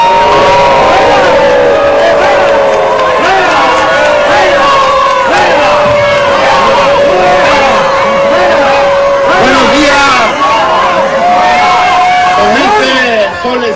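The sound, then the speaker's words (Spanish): A large crowd boos and jeers at the governor of Baja California Sur at a public event. Many voices keep up loud, continuous howling without a break. “compartió el templete con el gobernador morenista, el único que sí le tocaron abucheos, Víctor Manuel Castro.”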